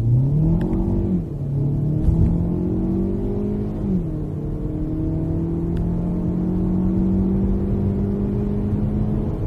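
A car with a 1.6 turbo engine accelerates hard from 0 to 100 km/h, its engine note climbing in pitch, dipping at two gear changes, then rising steadily through a long final pull.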